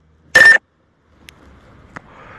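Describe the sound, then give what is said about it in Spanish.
Phone notification sound: one short, bright, loud electronic chime burst, followed after a pause by a couple of faint ticks over low background noise. “disculpen por la notificación”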